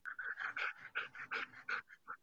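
A dog pants heavily in quick, rhythmic breaths: a steady run of many short huffs and wheezes with no talking.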